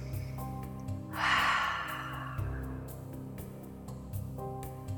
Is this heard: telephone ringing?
no